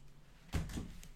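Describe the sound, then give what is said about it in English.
A window is shut with one soft, muffled thump, followed by a lighter knock, all faint against quiet background noise. “Just realized my window is open, so now I've closed that.”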